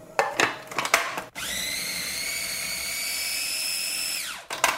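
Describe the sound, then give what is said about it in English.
A food processor blends ripe, sliced and pitted avocados until smooth. After a few clattering knocks, a high motor whine starts abruptly, holds steady for about three seconds, then winds down with falling pitch. “I'm gonna slice them, remove the pit, and scoop them into the food processor.”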